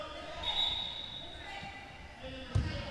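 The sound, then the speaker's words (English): A basketball being dribbled during a game, a few dull bouncing thumps on a hard floor, the clearest one near the end, with a voice talking over them. “will dribble and move in this direction.”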